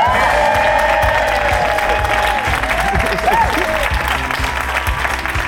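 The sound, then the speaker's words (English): A live show audience applauds and cheers to welcome a guest on stage. The clapping is loud and dense, with cheers mixed in, and it fades slightly toward the end. “She doesn't need an introduction, but she's going to get one anyway. Please raise the roof for the phenomenal Margaret Beckett!”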